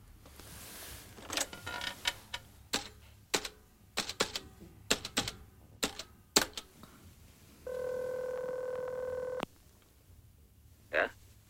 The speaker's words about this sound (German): Da ist das Telefon.